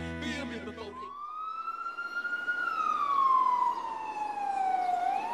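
Emergency vehicle sirens wail at a stabbing scene: a loud, clear tone climbs slowly, then glides gradually down before starting to rise again, sustained throughout.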